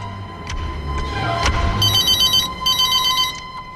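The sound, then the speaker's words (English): A telephone bell rings in two clear bursts with a short gap between them, bright and insistent over a low, steady background rumble. “Marvin hesitates and then moves away from Abby to answer the phone.”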